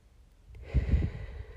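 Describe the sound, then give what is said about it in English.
A deep breath drawn in during a relaxation breathing exercise, starting after a brief quiet moment as a soft, airy inhale that swells and then continues steadily to the end. “So let's breathe in and hold it at the top and out. Breathe in.”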